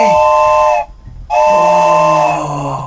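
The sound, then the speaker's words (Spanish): A wooden train whistle imitating an old steam locomotive sounds two loud, sustained blasts, each a steady chord of several tones, with a short pause between. The second blast runs longer and eases off slightly at the end. “Justo el del tren. Pero la máquina antigüita, ¿eh? Exactamente, que es una cosa de madera muy bonita que dije, nunca la he estrenado.”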